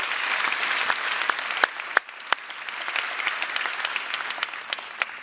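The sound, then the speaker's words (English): Church audience applause: dense, steady clapping for about five seconds, with a few sharper individual claps standing out near the middle and no talk over it. “Let's give all those people out there a big hand.”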